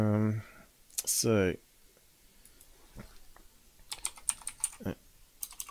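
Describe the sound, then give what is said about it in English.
Typing on a computer keyboard: a brief voice comes first, then quick, irregular key clicks patter in uneven bursts, light and crisp. “Just type in sun balloon, helium.”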